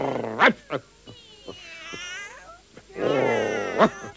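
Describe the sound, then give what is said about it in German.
Cats meowing and caterwauling by a garden fence: several short meows, then a long wavering yowl and a drawn-out, strained wail, with sharp clicks scattered between the calls. “Am Gartenzaun hocken mindestens 100 Katzen.”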